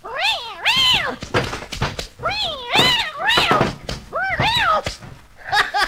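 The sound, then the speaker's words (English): An animated cartoon cat meows in a series of drawn-out, wavering cries that bend up and down in pitch. Dull thumps and thuds fall between the meows, and no other voices are heard. “Why, that's a cat. Yep, nature's own mouse trap. Go get him, puss.”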